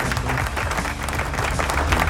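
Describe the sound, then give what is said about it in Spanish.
Applause sound effect, a dense, even wash of many hands clapping that holds at a steady level for about two seconds, with a faint low hum running underneath. “Espérate, sube esto aquí. Ahí están los aplausos.”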